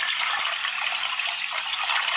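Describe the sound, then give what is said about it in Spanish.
Water rushes as a toilet is flushed by pulling its chain, a steady, continuous gush that holds an even loudness throughout with no breaks. “Fíjate que ahorita propusieron por ahí que el de la cadena del baño. Ah, ya. Mira. Porque ese quedaría perfecto.”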